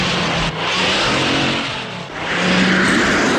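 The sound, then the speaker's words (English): A car engine revs hard and accelerates as it speeds ahead through a pack of stock cars on an icy track during a chase, a loud continuous roar that dips briefly and then surges again. “She squeezes between several stock cars and speeds ahead.”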